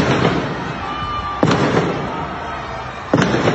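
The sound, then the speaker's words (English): Gunfire in city streets in Myanmar: two sharp, loud bangs about two seconds apart over a constant roar of street noise. “Every day, every night, in cities across Myanmar, the sounds of battle.”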